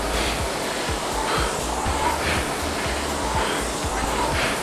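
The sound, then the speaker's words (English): Steady rushing whoosh of a rowing machine's air flywheel as the rower drives through the catch, a continuous broad noise like surf or a hair dryer with faint, regularly repeating low pulses. “Listen to the machine accelerate as you hit the catch.”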